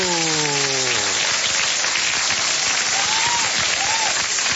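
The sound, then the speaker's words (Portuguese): Group applause for a birthday celebration, a voice trailing off at the very start before the clapping takes over as a loud, continuous patter to the end. “Agora só faltou aqueles aplausos para a gente comemorar, juntamente com os aniversariantes, esta data.”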